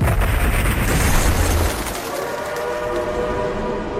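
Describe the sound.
A train arrives at a station with a loud, broad rumble and rattling clatter of rail cars, steady at first and then softening in its lower tones partway through.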